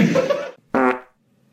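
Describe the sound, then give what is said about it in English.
Two loud farts in quick succession: a longer low rumble, a short pause, then a shorter buzzing burst. “Holy crap fart.”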